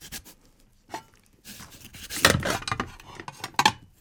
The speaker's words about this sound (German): Brett, der Kürbis natürlich, Schüssel, wo ist das Messer? Hier. So, und jetzt muss erstmal der Deckel ab. So, oh, das ist aber schwer. Deckel ab.